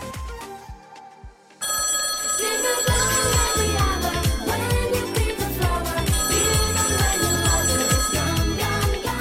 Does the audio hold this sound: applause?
no

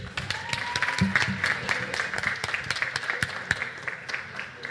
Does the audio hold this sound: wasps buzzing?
no

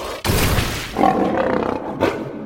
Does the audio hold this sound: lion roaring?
yes

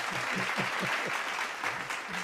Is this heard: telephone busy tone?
no

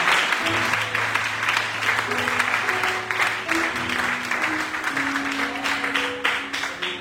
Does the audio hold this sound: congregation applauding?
yes

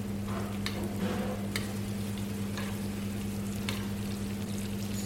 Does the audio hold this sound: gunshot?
no

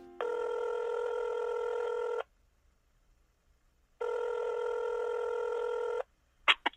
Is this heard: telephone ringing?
yes

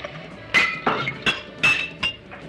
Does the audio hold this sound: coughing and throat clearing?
no

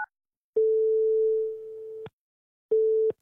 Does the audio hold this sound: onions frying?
no

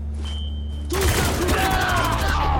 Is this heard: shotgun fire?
yes

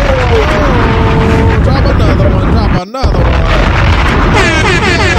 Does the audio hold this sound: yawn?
no

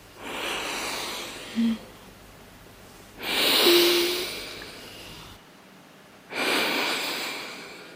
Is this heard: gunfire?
no

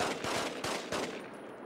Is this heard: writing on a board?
no

